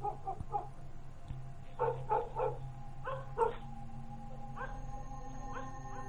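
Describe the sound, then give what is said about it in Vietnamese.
A dog barks toward a bamboo thicket in several clustered bursts of short, hoarse barks, with two or three barks in a burst. The barks grow fainter toward the end over a steady low hum. “Con chó cứ chĩa về hướng bụi tre mà sủa ông ổng. Dứt quãng một hồi nó lại tru lên”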